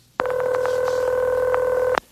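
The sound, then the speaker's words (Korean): Telephone tone of an outgoing call to a grandfather that rings unanswered: a steady, sustained electronic tone lasting nearly two seconds, with a few faint clicks over it and no voices. “제발요 할아버지, 전화 좀 받으세요.”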